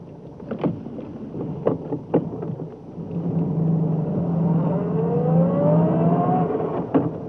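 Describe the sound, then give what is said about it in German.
A car drives along a city boulevard in East Berlin just past a border checkpoint; a few sharp knocks come first, then a steady engine drone with a whine that climbs in pitch as it accelerates, alone without talk. “Und jetzt fahre ich die Straße unter den Linden.”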